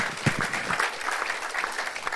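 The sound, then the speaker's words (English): A round of applause rises during a church service: a dense patter of clapping, strongest near the start, then staying fairly even to the end. “Come on, give him a round of applause.”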